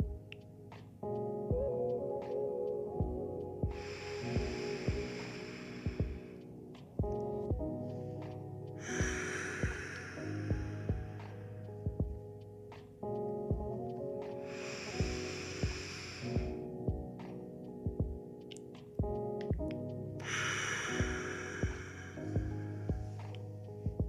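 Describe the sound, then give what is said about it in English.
Slow, deep breaths taken during a guided relaxation, long airy rushes of inhaling and exhaling that recur at an even, unhurried pace over soft, sustained music. “this gratitude, we move it through our bodies as we take 3 deep breaths.”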